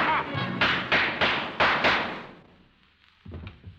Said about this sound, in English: Miss Cosby, I hear some shot. It sounds like...